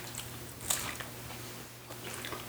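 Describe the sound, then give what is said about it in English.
Someone bites and chews something flour-flavoured: a few faint crunchy bites and soft, squishy chewing in a quiet setting. “for tasting like I'm eating a flour, it tastes pretty good. And I'm not one to eat flours.”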